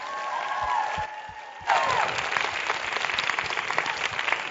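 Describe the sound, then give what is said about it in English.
Audience applause welcomes a guest speaker to the stage for a talk about her motherhood journey. The clapping swells sharply partway through, then stays dense and lively until the end. “So I would love it if you would put your hands together and welcome Nancy to the stage.”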